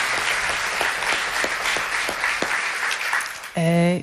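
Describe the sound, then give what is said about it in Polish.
Audience applause at a live concert: dense, steady clapping at a fairly loud level that continues unbroken, with a sustained tonal musical note cutting in right at the end. “Wielkie brawa.”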